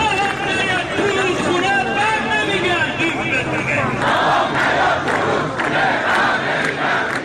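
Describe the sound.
A crowd of protesting farmers gathers near Khaju Bridge in Isfahan, with many voices merging into a loud, steady roar of shouting and chanting that never drops away.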